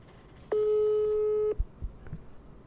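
A single steady telephone tone on an outgoing call, flat in pitch and lasting about a second, followed by a few soft, faint knocks.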